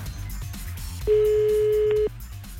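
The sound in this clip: An outgoing phone call produces one steady ringing tone about a second long, which starts and stops abruptly over a low, repeating background sound. No one talks.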